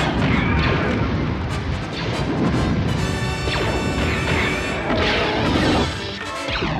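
Sci-fi blaster shots fire in a loud, dense barrage mixed with crashing impacts and sharp zaps, many rapid bursts overlapping without a pause from start to finish.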